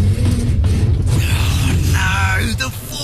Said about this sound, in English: Forklift. Think you can fix it?